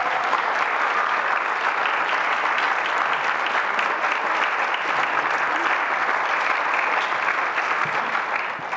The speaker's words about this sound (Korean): 함께 섬겨주셨던 그 모든 분들을 위해서 우리 한번 큰 박수로 감사합니다.